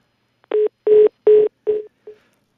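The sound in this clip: Telephone dialing tones as a call is placed: five steady, evenly spaced beeps of the same pitch, the last one shorter and fainter, with silence around them.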